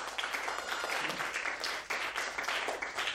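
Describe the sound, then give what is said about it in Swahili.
Applause from a church audience welcoming a pastor: dense, steady clapping from many hands, loud and continuous for the whole stretch without a pause. “Karibu baba, makofi kwa mchungaji.”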